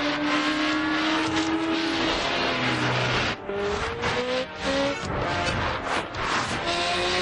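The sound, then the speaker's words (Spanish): Car engines roar through heavy traffic during a vehicle chase in an action film, a loud, unbroken mix of engine drone with tones that shift in pitch as the cars run side by side. “Sortean el intenso tráfico. Ethan va el último. Se empareja con uno y circulan en paralelo.”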